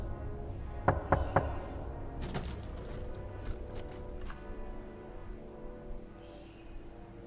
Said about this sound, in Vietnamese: Vừa dứt lời, ở trong quan tài lại chuyển đến tiếng gõ, lần này to và dài hơn.